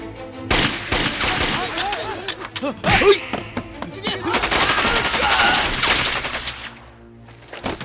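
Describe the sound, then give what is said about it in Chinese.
Machine-gun fire in a fusillade of rapid, loud cracks and heavy thuds in dense bursts, with voices shouting among the shots before the firing eases off near the end. “停止射击”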